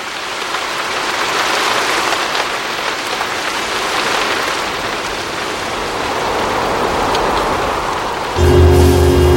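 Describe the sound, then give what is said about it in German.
Heavy rain driven slantwise by wind pours down in a dense, continuous hiss that swells and eases slightly, and a low steady hum joins just before the end. “Das einzig Gute an dem Wind war, dass er den Regen schräg vor sich her peitschte”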